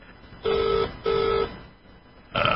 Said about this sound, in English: I keep hearing the signal. I don't know if that's an emergency. That's my phone just trying to ring her in Ireland.